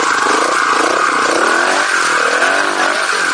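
A two-stroke trials motorcycle engine runs continuously with a loud, raspy buzz, its pitch wavering up and down as the throttle is worked.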